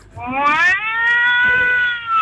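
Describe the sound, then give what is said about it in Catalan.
A voice imitates an angry cat with one drawn-out, high, wavering yowl that holds steady for about two seconds, loud and alone. “Jo vaig a imitar a un gat. Un gat. Vale? A un gat enfadat.”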